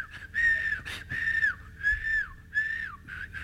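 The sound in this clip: Whistling by someone newly taught to whistle: a few sustained, clear high whistled phrases, each held at a steady pitch and ending in a quick downward slide, repeated with short gaps and no voices.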